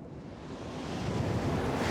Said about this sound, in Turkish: Rüzgar o kadar güçlü ve oltamı o kadar sert çekiyor ki yem suya hiç girmiyor.